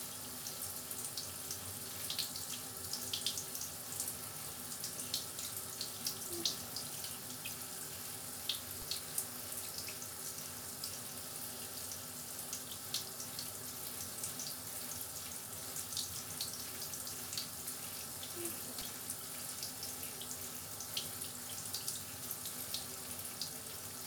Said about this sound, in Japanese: 頭皮の毛穴の汚れがすべて、温かいお湯で流されていきますよ。